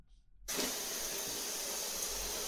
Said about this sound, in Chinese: 去冲水去，来，开花洒